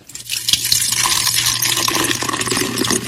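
Beer poured into a feeding tube makes a steady, gurgling trickle of liquid, continuous and fairly loud after a brief start.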